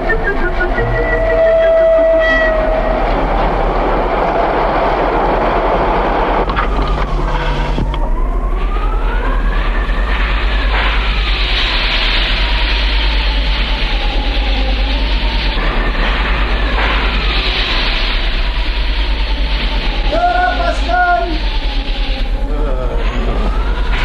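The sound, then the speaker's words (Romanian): A train locomotive comes to a full stop with a continuous loud rumble and heavy hissing. Wavering whistle-like tones rise and fall over a deep, steady low drone throughout. “Eu nu știu, dar văd că locomotiva s-a oprit de tot.”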